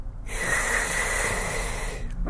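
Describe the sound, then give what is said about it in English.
A long, deep breath, a steady airy hiss lasting about two seconds at an even, moderate level, heard alone without talk. “Deep breath.”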